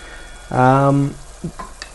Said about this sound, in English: And we've got the stove up high enough that you should feel the heat coming off it long before you touch anything hot as well. Still just stirring this around.